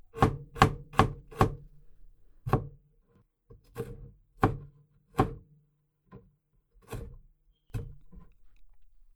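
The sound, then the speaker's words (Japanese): Fresh ginger is chopped with a kitchen knife in many sharp, crisp strikes. A quick burst comes first, then the strokes continue more slowly and unevenly, with short pauses between them. “ここまで小さくなったらあとは刻んで入れちゃおう。生姜ちょうだい。”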